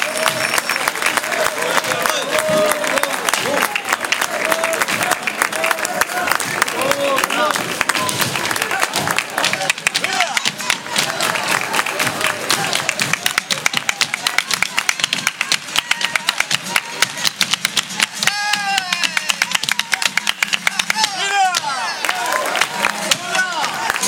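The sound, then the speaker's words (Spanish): A live audience at a flamenco night in Manilva applauds loudly and without a break, with dense clapping mixed with cheers and crowd voices throughout. “Ese fortísimo aplauso.”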